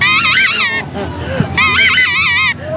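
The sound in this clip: Toy trumpet blown in two long, loud, reedy blasts with a wobbling, honk-like pitch, separated by a short gap.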